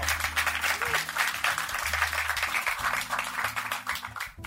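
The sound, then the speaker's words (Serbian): Audience applause welcomes a guest on stage: dense, steady clapping that carries on without a break for the whole clip. “Veliki aplauz za našeg Vanju Grbića.”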